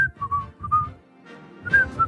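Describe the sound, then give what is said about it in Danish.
Human whistling in short, high, clear notes, grouped into a few bursts with a quiet gap in the middle and no talk. “Kan du godt fløjte? Du kan bare ikke ramme tonen.”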